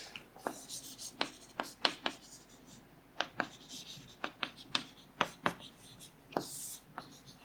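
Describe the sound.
Writing on a board: many short, sharp strokes and taps in an irregular rhythm, fairly faint, with no clear talking over them.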